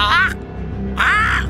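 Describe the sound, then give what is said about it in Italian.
Two harsh, raspy squawks from an escaped parrot: one short call at the start and a longer one about a second later, each loud and strongly harmonic, with a quieter gap between them. “Scusi, mi è scappato il pappagallo!”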